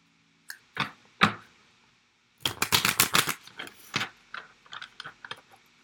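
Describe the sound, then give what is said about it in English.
A card drawn from a deck: a few sharp, papery snaps, then a quick burst of rapid riffling clicks and several softer scattered flicks, with no voices. “Let's take one card.”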